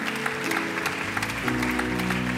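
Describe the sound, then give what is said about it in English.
A church audience clapping their hands in praise, sharp rhythmic claps repeating over sustained low musical tones. “Give the Lord a big hand clap, give Him praise tonight.”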